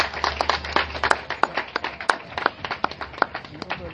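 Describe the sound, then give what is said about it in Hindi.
Audience applause as a guest is garlanded with flowers, heard as scattered, uneven claps from a modest crowd over a low hum. “आपकी जोरदार तालियों में”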